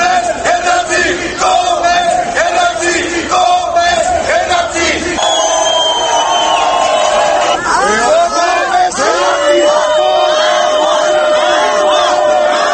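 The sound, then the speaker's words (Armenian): Protesters chant "shame" at Republican, Orinats Yerkir and Prosperous Armenia deputies entering the building before a parliamentary session. Loud, continuous crowd shouting and chanting is mixed with whoops and yells throughout. “Ցուցարարները հավաքվել էին նիստը սկսվելուց առաջ և կողմես հերացիր ամոթ վանկարկելով էին դիմավորում շենք մտնող հանրապետական օրինաց երկիր և Բարգավաճ Հայաստան կուսակցությունների պատգամավորներին։”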